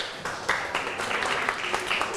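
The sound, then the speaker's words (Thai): Steady applause from a group clapping for themselves after reading aloud a written description of spicy stir-fried holy basil, a dense, even patter of hand claps lasting a couple of seconds with no speech over it. “ปรบมือให้ตัวเองครับ”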